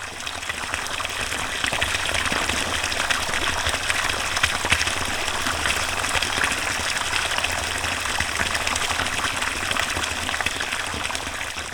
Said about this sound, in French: après égouttage du milieu, qui retourne au bassin, on a cette patte de spiruline qui s'est posée au fond de notre truc